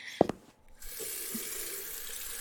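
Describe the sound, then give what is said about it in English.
Water runs steadily from a sink tap during hand washing. A couple of short knocks come first, then the flow settles into an even, continuous hiss. “Daddy would want me to wash my hands.”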